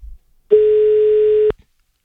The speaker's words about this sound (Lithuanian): Numerį? Turim. Skambinam.